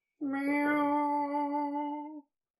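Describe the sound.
A voice imitating a cat's meow: one long, drawn-out vocal meow lasting about two seconds, loud and alone, with a steady, slightly nasal pitch.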